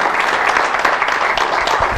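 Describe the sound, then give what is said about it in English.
Congregation applause at Cove Baptist Church in suburban Louisville, Kentucky, a short, dense burst of clapping held at a steady, loud level throughout. “Let's give a wonderful hand of applause to all those who'll be watching by internet today.”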